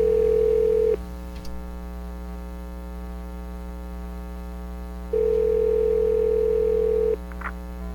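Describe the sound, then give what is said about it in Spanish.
A telephone tone heard while placing a call: a steady, mid-pitched tone sounds in two separate bursts, the second longer, over a constant low electrical hum, with no voices. “voy a hacer una llamada, espérame, ya vengo”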